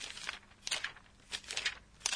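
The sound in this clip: Paper pages being turned: a few crisp, papery rustles and flicks come in short bursts with quiet gaps between them, soft and alone with no voices.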